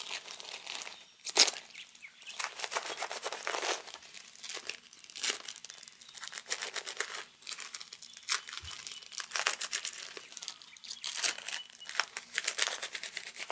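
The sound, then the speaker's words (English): Adhesive tape is pulled off the roll and pressed down while someone is wrapped up, with many crackling, ripping bursts in an irregular rhythm, fairly faint, with no talk. “Okay, I think I've put you through enough embarrassment. We're almost done now. Get you all taped up.”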